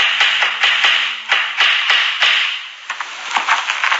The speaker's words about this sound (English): was nailing up a sign outside our house.